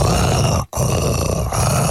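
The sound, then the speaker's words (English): Rough, throaty roar from a human voice imitating a tiger: two loud, sustained rasping bursts split by a brief break, the second running on to the end. “I want to do an impression of a tiger roar, of a roar.”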